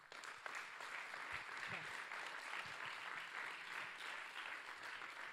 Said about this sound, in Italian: Facciamo un altro applauso a Leo e a Carly